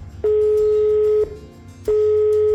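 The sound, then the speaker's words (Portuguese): A telephone line tone sounds while a call is placed to a nun of the Dorothean audience: two steady, bright beeps of about a second each, separated by a short gap, over a faint low hum. “Vamos ligar para a irmã Rosa. A irmã Rosa da congregação das Doroteias. Vamos dar uma ligada para ela então.”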